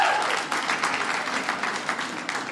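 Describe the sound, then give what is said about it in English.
Audience applause at a stand-up comedy show: dense, steady clapping from many hands that holds at an even, fairly loud level throughout, with no voices standing out. “So, round of applause. Who's the clean one? Clap if you're the clean one tonight.”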